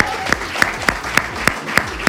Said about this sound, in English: We need to give a massive round of applause. First of all, Mark English won, and this is a wild stat, lads. He won our first ever men's gold in European athletics for the 800 metres. Round of applause for Mark English.